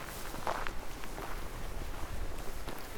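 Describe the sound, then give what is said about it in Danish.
Footsteps swish through tall, wet grass on a large meadow. There is a steady run of soft, rustling, brushing steps with moderate loudness, and no talk is heard. “Så skal vi lige nogle meter den her vej igennem det her lidt høje våde græs.”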